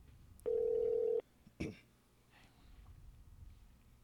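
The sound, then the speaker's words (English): Telephone being dialed: a single steady electronic tone holds for under a second and stops, followed by a short click, then faint background noise. The sounds are quiet overall. “Let's see if he goes through. Say it out loud as you dial.”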